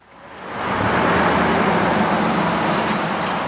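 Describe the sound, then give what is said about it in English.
Steady roar of a constant stream of cars on the Cades Cove scenic drive in Great Smoky Mountains National Park. It swells in over the first second, then holds as an unbroken, even wash of road noise. “The gates are open again at the entrance of Cades Cove, the most popular scenic drive in Great Smoky Mountains National Park. It attracts a constant stream of cars packed with eager leaf watchers.”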